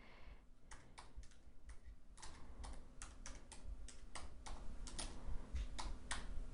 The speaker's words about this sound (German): jetzt ist mir gerade noch ein Hinweis eingefallen, den ich hier gerade aufschreibe.